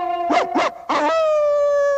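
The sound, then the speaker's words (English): A red-haired Afghan hound howls in a cartoon scene. A few short, wavering yowls over a steady tone give way to one long, sustained high note that holds to the end. “The artist yanks Prissy inside by the collar, stopping her in mid-howl.”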